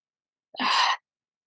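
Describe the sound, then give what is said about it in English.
A single deep breath drawn in during a guided breathing exercise, a smooth, airy rush lasting about half a second, heard alone in silence. “Deep breath in.”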